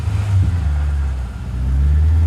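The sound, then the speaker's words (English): A car engine drones as the vehicle pulls away in a blustery wind, a loud, low, steady rumble that dips slightly midway and then swells again. “She watches him drive away.”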